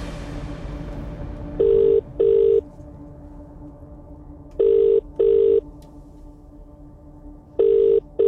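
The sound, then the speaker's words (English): Telephone ringback tone on an outgoing call: three double-burst rings repeat at a steady interval, each pair of short, loud, even tones followed by a pause, with the last pair cut off at the end. “Definitely worth answering your phone with that word I gave you at 8 o'clock. Come on. Don't go straight to voicemail, please.”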